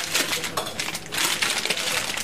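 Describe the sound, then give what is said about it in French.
Products being unpacked in a cheese shop make a busy run of clattering and rustling, with sharper clicks and knocks scattered through the continuous handling noise. “Et bien là, je déballe un certain nombre de produits”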